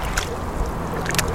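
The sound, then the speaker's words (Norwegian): Water laps and sloshes against a small rubber boat on the Oslofjord, a steady wash of noise broken by a few light splashes and gurgles. “bitte liten båt, gummibåt här i Oslofjord med sjölys.”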